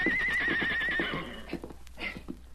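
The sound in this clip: A young colt neighs as a rider tries to mount him: a long, quavering, high whinny that wavers in pitch, then trails off into softer breathy snorts and faint hoof sounds.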